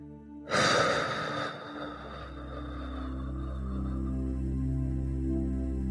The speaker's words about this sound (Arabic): نحاول كمان ناخذ نفس وبعدين نكتم النفس بعدين زفير من الفم كأننا بننفخ شمعة